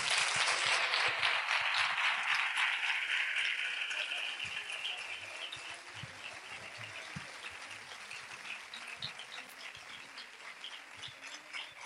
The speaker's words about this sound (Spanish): quisiera que despidiéramos con un fuerte aplauso, ¿no?